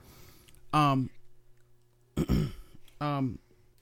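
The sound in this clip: Throat clearing from a parched throat, three short, rasping voiced bursts separated by quiet pauses.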